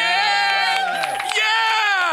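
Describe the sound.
A live audience cheers and whoops. Loud, overlapping voices with high calls ring out continuously throughout.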